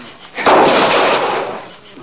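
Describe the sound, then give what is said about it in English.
A single gunshot in a western-style shootout, fired from behind a totem pole outside a trading post: a loud, sharp blast followed by a long, roaring decay that lasts over a second. “the shots weren't coming from inside. Whoever was firing was using the Indian post for a shield.”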